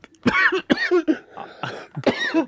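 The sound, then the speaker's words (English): A person coughing and choking, making several strained, voiced, throaty bursts in quick, uneven succession. “Since you're choking, I'll take it from here. uh, you... oh, something blue stuck in my throat.”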